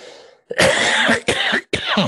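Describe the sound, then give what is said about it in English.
Someone coughs after swallowing something down the wrong way: three loud, harsh, raspy coughing bursts in quick succession, each clipped by brief pauses. “Excuse me. Got something down the wrong side.”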